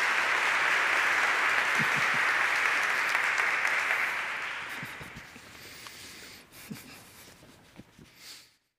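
A church audience applauds its June new members class with loud, dense clapping that holds steady, then tapers off over several seconds, leaving a few scattered claps and light knocks.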